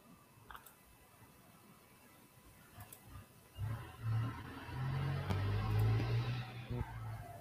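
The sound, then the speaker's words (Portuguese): A show jingle starts after a few seconds of near quiet and swells into loud, sustained music that holds steadily to the end. “Roda a nossa vinheta.”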